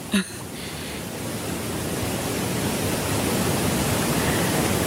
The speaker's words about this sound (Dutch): Want het is het ruisen van water. Ja, van watervallen, van rivieren in de bergen.